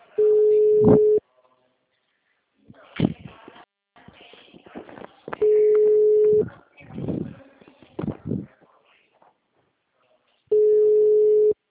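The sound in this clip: A telephone call rings out before going to voicemail: three steady one-second ringback tones spaced about five seconds apart, with rustling and handling noises in the gaps between them.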